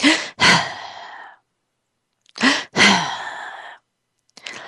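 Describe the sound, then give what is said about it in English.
An adult voice imitates a baby's sigh twice, each a short sharp gasping inhale followed by a longer breathy exhale, with a pause between them and the start of a third breath at the end. “or you'll hear the baby sighing. I'll try to do it for you. He goes,”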